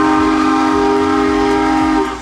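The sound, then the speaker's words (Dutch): Steam train whistle sounding a loud, steady multi-tone chord over rhythmic low chuffing pulses. It runs continuously for about two seconds, then eases slightly at the end. “Spurt even naar de Nostalgie-app, open die en doe even je beste stoomtrein na. Ja, je beste stoomtrein, dat klinkt dus zo ongeveer.”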